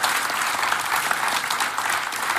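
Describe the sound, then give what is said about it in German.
Dense, steady applause from many hands, an even crackling wash of clapping that holds at the same loudness throughout with no talk over it. “Und ja, das ist durchaus ein Applaus wert.”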